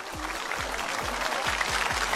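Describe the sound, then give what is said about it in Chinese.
Applause from a crowd, a steady, dense clatter of clapping that lasts throughout, with a faint low repeating pulse underneath. “一缕阳光，我必须要给你鼓掌”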